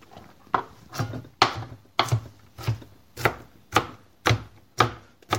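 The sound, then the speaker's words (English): A knife roughly chopping a pile of peeled garlic on a board, with a steady, evenly spaced run of crisp, thudding chops and no talk. “Once more, I'm just going to roughly chop it.”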